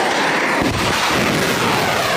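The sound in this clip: Artillery fire from a live-fire, high-altitude air-defence drill gives a loud, dense, continuous roar that fills the whole stretch with little variation, and no voices are heard.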